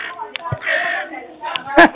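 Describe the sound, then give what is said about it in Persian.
Human voice imitating a crow's caw, with two short, harsh, loud cries at the end after some brief talking. “این صدای قارقار رو صدای من گذاشتی”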